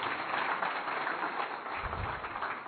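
An audience at a Sindhi community gathering applauds. The steady, dense patter of many clapping hands lasts nearly three seconds, with a muffled, dull top end.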